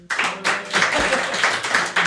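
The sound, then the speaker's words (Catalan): An audience applauds with a dense, steady patter of many hands clapping that continues throughout at an even loudness. “Han aplaudit tots perquè no són d'Osona.”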